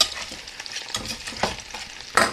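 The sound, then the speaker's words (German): Butter and flour frying in a pan while being stirred: a soft, steady sizzle with intermittent scraping strokes, fairly faint, and no voices. “ihr müsst aufpassen, dass die Butter bzw. auch das Mehl jetzt nicht anbrennt.”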